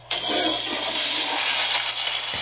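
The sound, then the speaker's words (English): A toilet flushing: a sudden, loud rushing gush of water that starts abruptly and roars steadily for about two seconds, with no voices. “The next story comes with the sound effect.”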